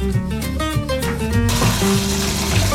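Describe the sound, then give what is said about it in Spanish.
Tap water runs over peeled potatoes being washed for mashed potatoes, a loud, steady rushing stream that turns fuller and brighter partway through and keeps going to the end. “Una vez terminado de pelar todas nuestras papas, ahora las vamos a lavar.”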